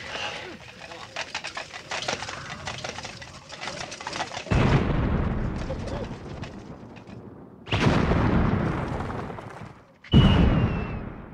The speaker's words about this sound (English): What manner of man are you that can summon up fire without flint or tinder?